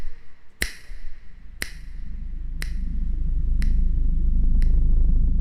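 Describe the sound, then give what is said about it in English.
Five sharp, crisp finger snaps fall at an even pace of about one per second, each bright and ringing briefly, over a low droning rumble that grows steadily louder. “Petrified by that sound. A snap of a finger then went right through my brain and echoed a thousand times in the air”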